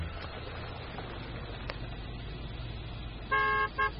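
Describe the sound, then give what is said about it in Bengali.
A car horn honks twice near the end, a longer tonal beep followed by a short one, after several seconds of low vehicle rumble. “গাড়িতে horn দিতেই automatic gate খুলে গেল।”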